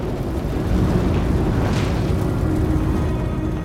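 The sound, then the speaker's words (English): An explosion tears through the cab of a flatbed truck and sets it ablaze, heard as a loud, continuous roaring rumble that holds steady for several seconds without a break. “An explosion rips through the cab of the flatbed truck, sending flames high into the air.”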